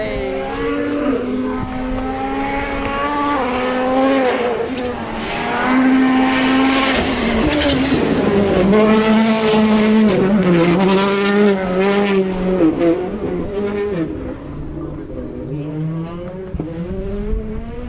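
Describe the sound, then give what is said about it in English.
Hyundai race cars roar along the Anglesey motor racing circuit. Their loud, high-revving engine notes rise and fall through gear changes, and several engine tones overlap throughout. “Another Hyundai coming through.”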